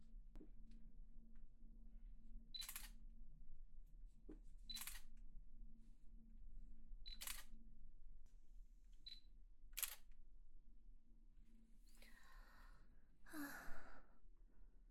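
Camera shutters click during a continuous wedding-dress photo shoot, several crisp snaps spaced a couple of seconds apart over a low, quiet hum, followed by a breathy sigh near the end.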